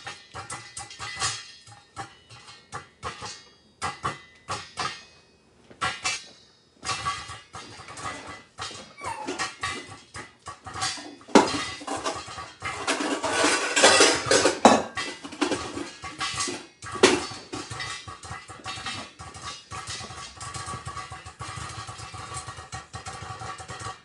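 Popcorn kernels popping in a pot as it is shaken: dense scraping rattle with many sharp scattered pops, growing busier and louder in the middle before settling into steady crackling.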